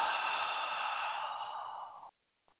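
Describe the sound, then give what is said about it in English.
A long, steady exhale of breath, soft and airy, lasts about two seconds and then stops abruptly. A tiny faint breath noise follows in near silence. “we're going to start with just one deep breath in and hold and exhale.”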